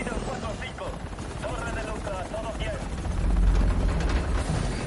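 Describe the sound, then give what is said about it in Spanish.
A helicopter roars as it lurches and tumbles through the air while approaching snow high on a mountain, a dense, steady rotor-and-engine wash whose low rumble swells louder partway through, with faint voices beneath. “Se aproxima a la nieve. El helicóptero da tumbos en el aire.”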